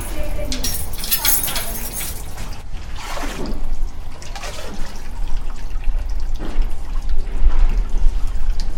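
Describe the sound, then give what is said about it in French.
Water being poured to top up a basin gives a continuous splashing, gushing wash that swells and eases in intensity throughout. “je dois ajouter de l'eau”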